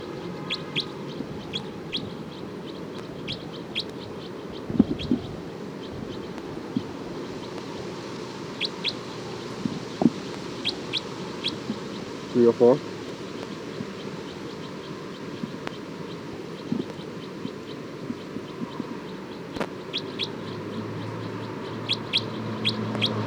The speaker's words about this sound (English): This is alarm calls of bird 304.